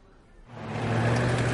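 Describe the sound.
Low engine rumble of a military truck driving through city streets. It starts quiet, then swells after about half a second into a steady, loud drone.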